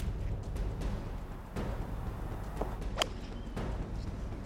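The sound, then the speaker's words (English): Golf club swing and strike on a golf shot, heard as one sharp crack of impact standing out from a steady noisy background. “You seen a worse golf shot?”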